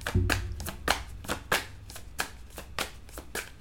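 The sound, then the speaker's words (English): Three cards being drawn from a deck of playing cards: a steady, roughly regular series of crisp, papery snaps and flicks, fairly soft and without talk. “Let me go ahead and take three cards, please. May I have three cards, please?”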